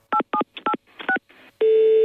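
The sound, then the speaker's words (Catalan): Telephone dialing tones while calling an answering machine: a quick, uneven series of touch-tone beeps, then a long unbroken steady tone. “Has trucat al contestador de la TDT. Si us plau, deixa el teu missatge.”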